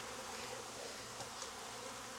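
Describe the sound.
Honey bees buzzing in a queen bank, a faint, continuous droning hum without pauses or talk.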